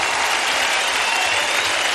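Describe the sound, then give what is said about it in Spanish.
A church audience applauds in worship with dense, even clapping that stays steady and fairly loud for the whole short stretch, with no voices standing out. “Oh, exáltale con tu aplauso.”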